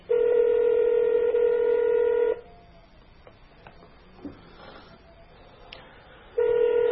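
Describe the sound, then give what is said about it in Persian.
A telephone call being placed: a steady dial tone, then a run of short dialing beeps, then a steady tone returns at the end. “بینندگان عزیزم دعا کنن که انشاءالله وصل بشه تماس.”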